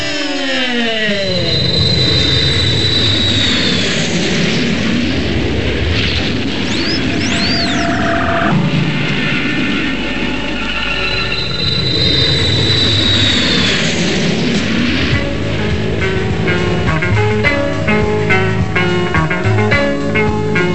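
A repaired airplane takes off, its engine giving a loud, continuous drone layered with tonal whines and sweeping tones that run for about twenty seconds without a break.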